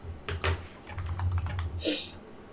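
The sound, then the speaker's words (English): Rapid typing on a computer keyboard during a tabletop dice game session: many quick, crisp keystrokes in uneven bursts, moderately loud over a low steady hum. “my furious typing is probably really annoying for anyone who has to listen to it”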